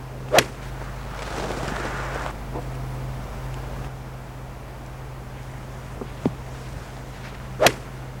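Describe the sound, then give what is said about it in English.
Golf shots struck with a 718 hybrid-style driving iron give a few sharp, crisp cracks with quiet gaps between them, and one softer strike in the middle. “I think it's got a lovely flight, very forgiving, a little sort of ziggy sound, a bit like a hybrid.”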